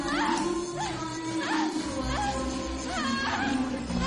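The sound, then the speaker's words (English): A malfunctioning television hisses with constant static under a high-pitched whine. The whine warbles and sweeps up and down in pitch several times over a steady wash of noise. “The TV displays an odd static pattern and makes a high-pitched whine.”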